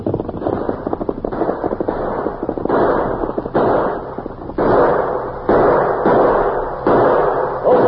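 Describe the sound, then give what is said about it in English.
Gunshots are fired in a shootout, with many sharp, loud reports coming in rapid bursts. Each blast is a dense, boxy burst of noise with a slightly muffled, band-limited tone. “The ornery polecats, they fired at me. That bullet went right through my hat.”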